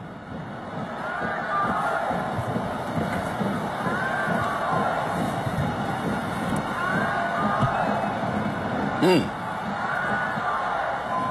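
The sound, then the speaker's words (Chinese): Football fans chant and shout players' names in a stadium during a Huai'an versus Xuzhou match, a steady, dense crowd roar lasting throughout beneath a commentator's talk. “现场我们能够很清楚的听到我们淮安的远征军在喊着淮安队加油，当然也能够听到徐州队的球迷高喊着自家球员的名字。”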